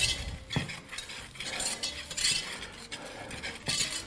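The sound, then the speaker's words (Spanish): Egg yolks are mixed with sugar and cornstarch in a bowl, giving quiet, repeated scraping and tapping strokes of a utensil in an uneven rhythm. “Antes de encender el fuego hay que mezclar las yemas con el azúcar y la maicena.”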